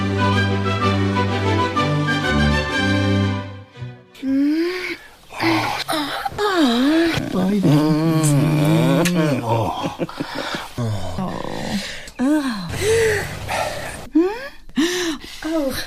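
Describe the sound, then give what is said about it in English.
Dramatic breathing from a voice: exaggerated gasps, wheezes and moaning breaths that rise and fall in pitch, following a few seconds of sustained music. “Dramatic or, breathing. Yeah, dramatic breathing.”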